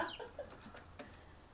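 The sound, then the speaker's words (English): Chicks peeping: several faint, high, short chirps in quick, uneven succession. “And now you're peeping again like a little chicks.”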